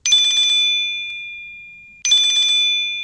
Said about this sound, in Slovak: Periférnym pohľadom som videla, že volá neznáme číslo.